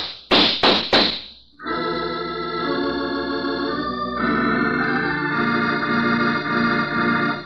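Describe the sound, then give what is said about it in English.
Three sharp gunshots crack in quick succession in an old-time detective radio drama, then a sustained orchestral music sting swells in and holds. “Lousy shots. They both lived.”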